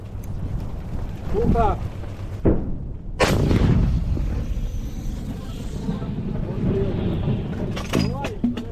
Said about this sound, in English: They're going to fire a second round. These British light artillery guns are trained on the city of Bakhmut.